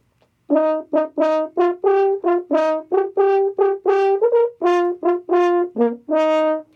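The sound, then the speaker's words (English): A natural horn lowered to E flat by fitting a longer crook of tubing plays a phrase of many detached, sustained brassy notes, each clearly articulated and resonant, with the pitch moving between them. “Now you'd have an E flat horn, it would sound like this.”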